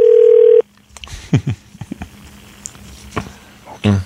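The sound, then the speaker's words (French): A single steady telephone tone opens a phone call to a hardware store. It sounds for about half a second, then gives way to brief scattered voices and small noises. “On compose tout de suite.”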